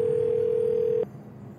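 A steady telephone dial tone heard while calling someone holds one unchanging mid pitch for about a second, then cuts off abruptly, leaving a low background hiss.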